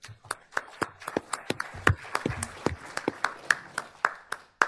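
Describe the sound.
An audience applauds to welcome a speaker at a Cato-sponsored book event. Many overlapping claps of uneven strength form a busy patter that keeps going throughout.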